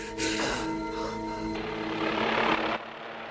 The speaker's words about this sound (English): A helicopter flies by in front of the snowy mountains.